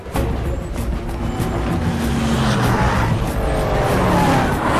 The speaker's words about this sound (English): She's about to walk off when she spots Vosen's vehicles approaching.